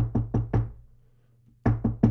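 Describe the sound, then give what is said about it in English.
Knocking on a front door: three firm, low raps, a pause of about a second, then three more, loud and alone. “knock on the front door.”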